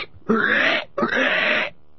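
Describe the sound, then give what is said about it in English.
Pigs squealing: two loud, harsh, shrill squeals separated by a brief gap, the second lasting longer than the first. “the squealing of stuck pigs”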